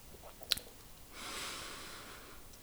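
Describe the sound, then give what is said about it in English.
A deep breath drawn in through the nose during a guided relaxation exercise. It is a soft, airy inhale lasting over a second, preceded by a brief click, and faint throughout. “begin to take a few deep breaths, inhaling in through your nose,”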